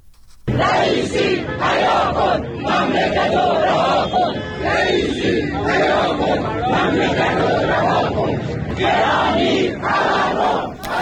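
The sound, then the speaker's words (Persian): A large crowd of protesters in Kermanshah chants loudly, retirees voicing anger over poor living conditions; massed voices rise in rhythmic, shouted bursts that run almost continuously over a steady crowd roar. “صدای معترضان در کرمانشاه.”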